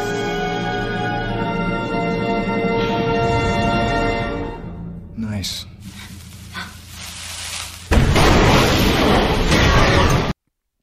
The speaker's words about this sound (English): But I'm telling you right now, there is no frickin' way in any shape or form she would have survived that blast.